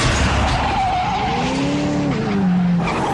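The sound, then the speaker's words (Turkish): A car accelerating and skidding: a loud, continuous engine roar with high squealing tire tones that slide downward in pitch toward the end. “Bas şu gaza. Biraz sabret, gazlıyorum işte.”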